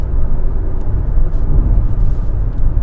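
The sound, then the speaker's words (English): Steady, loud low rumble of a car being driven, heard from inside the cabin, engine and road noise droning evenly throughout with no talking. “And I'm driving, so it might sound like shit”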